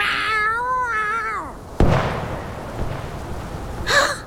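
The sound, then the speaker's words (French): A female cat yowls while fighting for her survival, a long wavering cry that falls in pitch and stops. A sharp hit follows, then a short harsh cry near the end. “T'as jamais vu une chatte qui se bat pour sa survie?”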